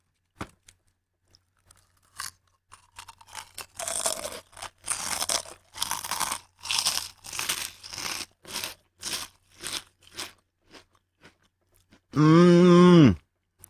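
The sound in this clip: Crunchy yuzu-flavoured pieces are chewed several at once: a run of loud, regular crunching bites after a few scattered clicks, then a short voiced hum at the end.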